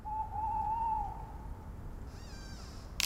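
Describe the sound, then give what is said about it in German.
Tawny owl hooting outside tents at night: one faint, drawn-out quavering hoot that fades away, followed by a thin, high, wavering call over a soft background hiss. “Draußen vor den Zelten knackt es und manchmal hört man einen Waldkauz.”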